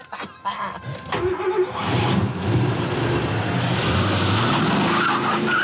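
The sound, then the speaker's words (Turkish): A car driven fast with its tyres skidding gives a loud, steady roar of engine and tyre noise. A few sharp bursts in the first second lead into a continuous broad rush that holds to the end. “Çok korkacaksın. Neden? Hızlı sürüyorum.”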